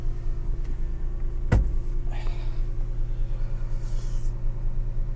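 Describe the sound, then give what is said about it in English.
Power side mirror being adjusted inside a 911 car: a sharp click, then two brief, faint motor whirs over a steady low engine hum. “Gotta adjust my mirror. One moment, please.”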